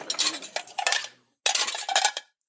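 Dishes and cutlery clatter as they are loaded into a dishwasher, in two busy bursts of clinking china and metal with a short pause between them. No voices are heard.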